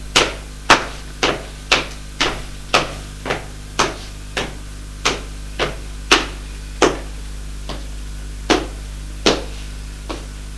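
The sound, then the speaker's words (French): Footsteps go down wooden stairs as a long, even series of many sharp, knocking treads over a constant low hum. “Quitte le grenier. Descends ces escaliers de bois.”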